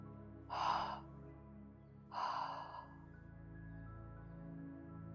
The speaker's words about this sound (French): Retiens un instant l'air et tu vas expirer en trois fois, cette fois-ci par la bouche.